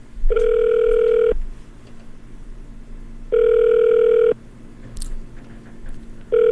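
Telephone ringback tone on an outgoing call: a steady, mid-pitched electronic tone sounding in one-second bursts separated by about two seconds of quiet, with two full rings and a third just beginning.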